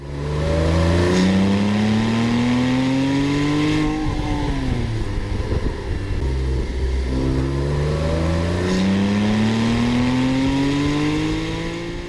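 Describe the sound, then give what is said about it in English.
A naturally aspirated Porsche 911 engine revs twice. Each time its loud, smooth note climbs steadily in pitch to a wail, then falls back. “Here's a Porsche 911 without a turbo, what's called naturally aspirated.”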